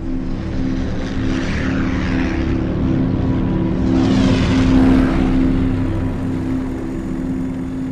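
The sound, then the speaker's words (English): A steady propeller-engine drone from six Avenger aircraft racing toward a stricken ship, a continuous heavy roar with a low humming core that swells a little midway and holds throughout, with no voices. “Unseen by anyone on deck, 6 Avengers from USS Yorktown were now racing towards the stricken ship.”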